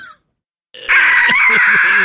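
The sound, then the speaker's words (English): A voice imitates a ghostly shriek: after a brief opening sound and a short silence, a loud, high-pitched wailing cry holds steady and unbroken for over a second. “You gotta deliver the shrieks here.”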